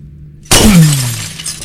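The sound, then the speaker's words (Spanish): Glass breaking: one sudden, loud shattering crash, followed by a lingering rattle of fragments that slowly fades. “Ruido de vidrio rompiendo. Se rompí, está rompido.”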